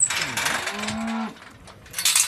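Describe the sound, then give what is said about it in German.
A cow moos on a pasture at an organic farm in Weisingen, Dillingen district: one low, drawn-out, throaty call with rich harmonics, loud and alone, framed by brief rustling noise. “Die Kühe vom Biohof Speinle in Weisingen im Landkreis Dillingen dürfen jeden Tag auf die Weide.”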